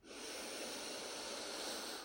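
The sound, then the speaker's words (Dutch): A slow, deep breath drawn in through the nose, heard as a steady, quiet airy hiss that lasts about two seconds with no other sound. “Adem even heel diep in door je neus.”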